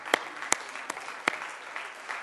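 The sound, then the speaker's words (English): A small audience applauds at an event honoring women, giving light, scattered clapping with a few sharp, louder claps standing out over a faint, steady wash of hand noise. “we can clap for them.”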